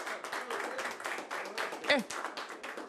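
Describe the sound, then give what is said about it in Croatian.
Faint applause for the waiters at a kafana evening: dense, even clapping from an audience, with one brief louder burst near the end. “Jedan aplauz za naše konobare večeras.”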